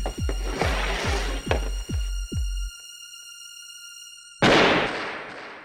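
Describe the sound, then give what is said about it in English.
A pistol gunshot during a game of Russian roulette: a run of low, regular thumps, a quiet gap with steady high tones, then one loud, sharp bang that slowly decays. “Now you go. Here's the pistol.”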